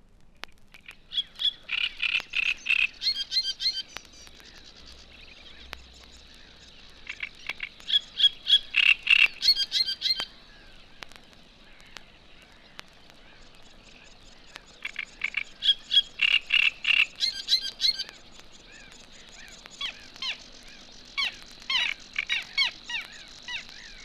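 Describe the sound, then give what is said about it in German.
Great reed warbler song: loud, harsh, croaking phrases of rapid repeated chattering notes, delivered in several separate bursts with quieter gaps between them. “Als erstes der Drosselrohrsänger. Er ist der größte Vertreter seiner Gattung und hat die kräftigste Stimme.”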